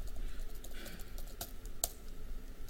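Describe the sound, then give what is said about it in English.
Typing on a computer keyboard while logging in to a Raspberry Pi: soft, irregular clicks and taps at a low level, with one sharper keystroke standing out. “So let me just authenticate myself to this Pi. Oh, I didn't type that right.”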